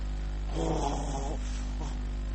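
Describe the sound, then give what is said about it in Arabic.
A man's voice imitates a sleeper's snoring, likened to the roar of a kerosene stove: a rough, buzzing drawn-out breath of about a second, then a brief shorter rasp, over a steady low hum. “كان إذا نام ظهر منه شخير. تعرفون الشخير؟ يعني الواحد هو نايم بعضهم يجي صوت مثل الدافور”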